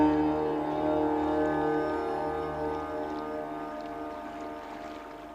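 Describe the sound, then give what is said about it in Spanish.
A boat's motor hums with steady harmonic tones as it moves away across the water, the drone gradually fading over several seconds. “El barco se aleja dejando un rastro de rosas flotando sobre el reflejo del atardecer.”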